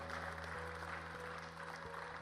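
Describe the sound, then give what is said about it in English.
Congregation clapping in praise during a church service, a faint, steady wash of applause with a few sharper claps over a constant low hum. “everybody give the Lord a big praise. Big clap of praise.”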